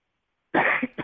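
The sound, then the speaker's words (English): A man gives a single harsh cough after silence: a loud rasping burst followed quickly by two shorter hacking pulses. “Sorry, cough.”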